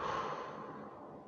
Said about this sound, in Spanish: Una vez más, tomo aire por la nariz. Largo por la boca.